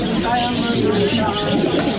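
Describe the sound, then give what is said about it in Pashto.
Pigeons coo at a bird-selling street market in Kabul. Low, murmuring cooing blends into a continuous bed of background voices and market bustle. “د کافروشۍ کوڅه په کابل کې د مرغانو د پیر او پلور سیمه ده”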